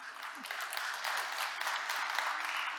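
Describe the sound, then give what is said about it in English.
An audience in a church gathering claps in a dense, even patter that stays fairly quiet and steady throughout. “Sometimes you clap at the beginning and I think maybe you shouldn't.”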